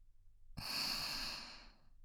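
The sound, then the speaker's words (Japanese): A deep breath, slow and airy, swells in softly and fades over more than a second with no talk, as in a guided breathing exercise. “体の中の息を抜いちゃおう。それから吸って、胸にいっぱい酸素を取り込む。”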